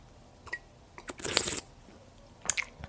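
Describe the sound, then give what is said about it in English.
Tea being drunk in quiet close-up sips: a few soft clicks and one longer, airy slurp, all faint, with no talking. “That's a little ASMR for you. Some tea drinking for you.”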